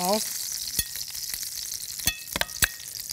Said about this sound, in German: Soll ich schon mal verrühren? Ja, gerne.